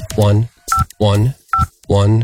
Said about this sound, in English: so I'm going to check my voicemail right now, putting in my password.